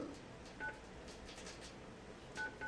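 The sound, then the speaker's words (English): Phone keypad button tones from dialing a number on a mobile phone: a few short, faint beeps of steady pitch, spaced unevenly over a soft, constant background hiss. “Yo, that's my phone pressing button.”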